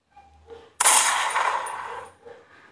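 A gunshot sound effect in a comedy sketch: one sudden sharp blast with a hissing tail of about a second that decays. Quieter sounds come just before and after it.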